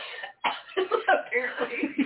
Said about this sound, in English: so I'm coughing, and I'm going,